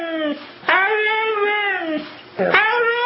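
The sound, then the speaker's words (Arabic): A dog vocalizing as if talking rather than barking: drawn-out, pitch-bending howl-like cries in a few separate calls, two of them long and loud, with short gaps between. “هنا بقى كلب كأنه بيتكلم مش بينبح اهو”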